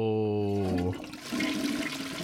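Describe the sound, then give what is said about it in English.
A toilet flushes with a loud rush of swirling water that swells and keeps churning steadily for over a second. “All right, who are you flushing down this time?”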